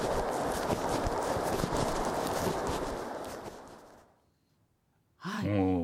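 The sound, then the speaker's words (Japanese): Quick, hollow clatter of footsteps crossing a wooden plank bridge about 20 metres long and slightly wider than a running-track lane. The footsteps fade to near silence, then a voice starts speaking. “板の橋でしたね、はいはい、渡る時の音声聞いていただきました”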